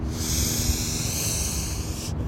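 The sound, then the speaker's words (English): A slow deep inhale during a guided breathing exercise for a workout, heard as a steady, airy hiss lasting about two seconds before it cuts off. “I'm going to demonstrate one. Breathing in,”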